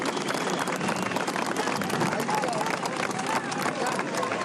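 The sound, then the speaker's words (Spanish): Audience applause from a large crowd, a dense, steady wash of clapping with voices mixed in, holding at an even level from start to finish. “Yo pido un aplauso por estas mujeres valientes.”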